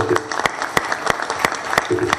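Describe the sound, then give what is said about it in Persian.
An audience applauds in honor of a retired general and former prison chief at a film event, with many crisp individual claps standing out and voices mixed in. “به نظر من میشه به افتخارشون دست زد.”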